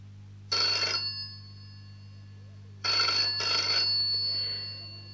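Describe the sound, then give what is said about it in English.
A telephone rings in short bursts of bright electronic trilling, one burst, a pause, then two close together, over a steady low hum. “The telephone's ringing. Can you answer it, please?”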